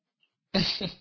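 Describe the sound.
A single sneeze bursts out loudly and abruptly after a near-silent pause, then tails off quickly with nothing else around it.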